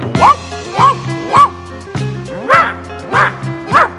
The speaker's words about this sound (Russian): Об этом громко лают собаки всех пород.